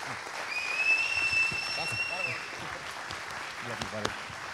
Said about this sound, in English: Come on, put your hands together. Be excited.